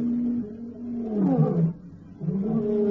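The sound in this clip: A male lion gives a warning roar: deep, rumbling, moaning grunts in two bouts separated by a short quiet gap, strong and resonant in the low range.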